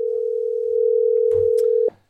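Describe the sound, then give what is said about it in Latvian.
Telephone dial tone as a phone call is placed: a steady, loud, mid-pitched hum with a few clicks near the end before it cuts off abruptly. “Piezvanām Ulim Rudakam. Kāpēc gan ne? Piezvanām Ulim Rudakam. Viņš gaida, viņš gaida mūsu zvanu.”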